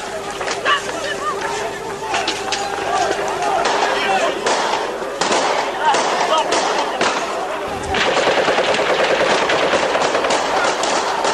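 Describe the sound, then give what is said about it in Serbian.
Gunfire breaks out during a riot, with sharp bangs and cracks scattered through a dense, loud roar of crowd noise and voices, some shots coming in quick succession. “lete kamenice, počinje pucnjava”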